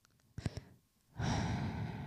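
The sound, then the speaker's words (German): Breathing blown straight into a microphone: a few short, sharp puffs, then after a pause a long, loud, breathy exhale. “Atme nicht ins Mikrofon rein, das ist so.”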